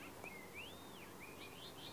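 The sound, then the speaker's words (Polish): Faint birdsong drifts over countryside with fields, meadows, small copses and a little pond on a hill: a few thin, high whistled phrases that rise and dip, over a soft steady background hiss. “słyszę ptaków śpiew.”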